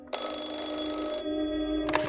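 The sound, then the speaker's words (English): A telephone rings in the middle of the night at 2 a.m., one continuous trilling ring lasting about two seconds at a fairly low level. “A few nights later, the phone rang again at 2 a.m.,”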